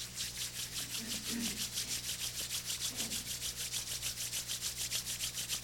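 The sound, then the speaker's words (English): Palms are rubbed together during a guided exercise, producing a faint, steady run of rapid swishing strokes in an even rhythm. “Open the palms. Fold your palms. And rub the palms.”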